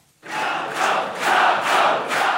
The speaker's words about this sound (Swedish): När vallokalsundersökningen presenterades igår kväll så jublades det på Rafał Trzaskowskis valvaka här i Warszawa.